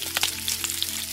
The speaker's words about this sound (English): Or maybe it's the sound of bacon sizzling in the morning.